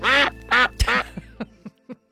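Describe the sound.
A duck quacks in a run of loud, harsh, nasal calls, the first three long and buzzy, followed by a series of shorter, fainter quacks that trail off unevenly.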